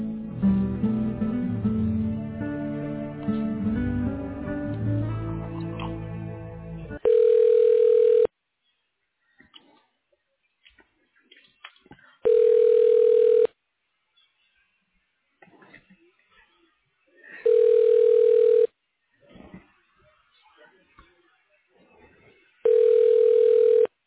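Telephone ringback tone while a call is transferred to an office extension: four steady, mid-pitched tones of about a second each, spaced several seconds apart, following an opening stretch of other sound.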